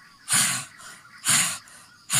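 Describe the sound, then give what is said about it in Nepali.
Open-mouth breathing in a pranayama breathing practice, with rhythmic, loud, breathy bursts alternating with softer breaths in a steady in-and-out pattern. “सास तान्दै फाल्दै, तान्दै फाल्दै,”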